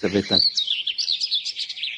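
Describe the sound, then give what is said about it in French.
A warbler sings a rapid, high, twittering phrase of many quick notes that runs without a break after a brief human voice at the start. “Ça, c'est une fauvette, à mon avis.”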